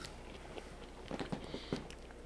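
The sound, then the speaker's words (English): A faint bite and chew as a small square of food, sweeter and softer than potato, is bitten off like an apple slice; a few muted crunchy clicks cluster near the middle over steady background hiss. “So if you eat that square. Right here? Yeah. Like that. And you just bite off of it. Almost like an apple slice.”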